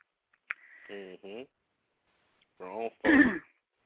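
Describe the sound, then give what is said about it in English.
A man clears his throat and coughs because of a tickle in his throat: short voiced throat-clearing grunts, then a harsh, noisy cough burst at the end. “I'm sorry, I've still got this tickle in my throat. Let me cough again.”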